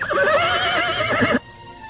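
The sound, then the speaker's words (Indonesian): A horse lets out a single long, quavering, high-pitched whinny that lasts over a second, then cuts off abruptly and leaves near silence. “Pawagal naik di atas punggung kuda berwarna coklat, sementara Samara, tangan kanan Patih Nambi, naik kuda berwarna hitam legam.”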